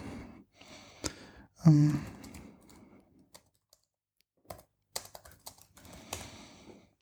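A search is typed on a computer keyboard on Amazon's website: short bursts of clicky keystrokes separated by quiet pauses, with a breathy exhale early on.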